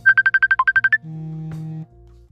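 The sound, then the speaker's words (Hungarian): A phone ringtone signals an incoming call: a rapid run of short, bright electronic beeps, then a steadier, lower sustained tone that ends abruptly. “Közben a kislányom próbál engem elérni a telefonon”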